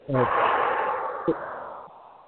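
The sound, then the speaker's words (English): Deep breathing during guided breathing, in through the nose and out through the mouth: one long, loud, airy breath heard alone. “I need you to take a breath in through your nose, out through your mouth.”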